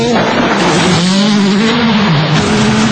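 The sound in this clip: Rally car engine racing in a world rally championship, a loud continuous drone whose pitch dips and climbs again while it keeps running throughout.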